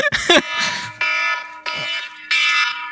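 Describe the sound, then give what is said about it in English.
A phone alarm goes off in a string of loud, harsh, buzzing tone bursts. They repeat at a steady rhythm and ring out alone. “That's the funny alarm. It's time for some funnies. Sorry about that. Yeah. No, you want to know the sad thing is that's the alarm in my phone”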